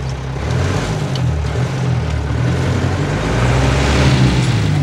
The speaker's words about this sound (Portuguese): O caminhão passa diante de uma casa sem reboco.